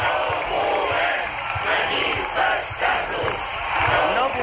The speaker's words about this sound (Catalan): amb pancartes i cridant unes consignes incomprensibles.